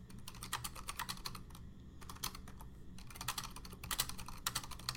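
Rapid typing on a computer keyboard: dense, clattering bursts of keystrokes broken by two short pauses. The clicks are fairly loud, with no talk.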